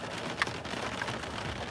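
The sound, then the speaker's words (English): Steady rain falls as a dense, even hiss of drops with a soft patter running throughout, moderately loud, with no voices. “I love the sound of rain. I do too. Those are extra pretty raindrops coming down.”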